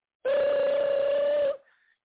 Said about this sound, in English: get your damn phone. We're in the movies, man. Get your damn phone.